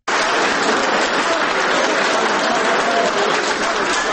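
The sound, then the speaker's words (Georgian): Ovation in a Tbilisi City Court hall as a judge's verdict is announced: a loud, dense wall of clapping that starts abruptly and holds steady for several seconds. “მოსამართლის გადაწყვეტილებას დარბაზში ოვაციებით შეხვდნენ.”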